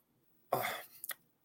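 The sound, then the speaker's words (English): Someone clears their throat in a short, rough rasping burst with a quick second catch at the end, heard alone against silence. “I got a little something in my throat there.”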